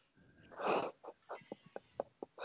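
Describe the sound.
Heavy breathing as a man catches his breath after an energetic sports announcement: one long, loud rasping exhale, then many short, quick panting breaths in an uneven rhythm, with no talk.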